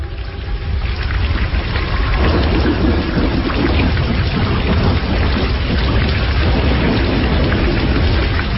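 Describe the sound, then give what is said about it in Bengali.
Heavy rain pours down on an open field in a dense, continuous roar, with a deep low rumble running beneath it throughout and no voices. “লোকালয় ছেড়ে যখন আমরা ফাঁকা মাঠের মাঝখানে এসেছি তখনই শুরু হল বৃষ্টিপাত।”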